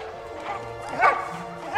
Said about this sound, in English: Dogs pace around in the cages, barking